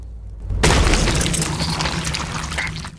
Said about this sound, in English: another egg is nudged off the shelf in the coop and hits the ground, smashing open.